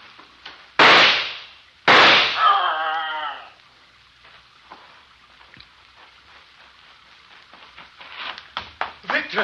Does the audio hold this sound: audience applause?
no